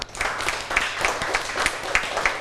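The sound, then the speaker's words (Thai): Classroom applause for a student, with a group clapping together in a loose, regular beat over a soft wash of scattered hand claps at moderate loudness. “โอเคปรบมือเพื่อนหน่อยค่ะ”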